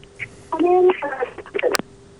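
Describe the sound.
A steady, low telephone tone sounds after a caller's line is cut off on a radio phone-in. It hums faintly throughout while a voice speaks over it briefly in the middle.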